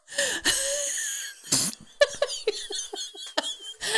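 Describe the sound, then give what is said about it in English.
Out-of-breath wheezing from a person: a long strained voiced breath, then a noisy rasping burst and a string of short, choppy wheezy breaths and gasps, fairly loud. “I'm running out of breath.”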